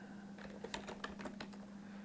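Typing on a computer keyboard: a quick, irregular run of light keystroke clicks over a steady low hum.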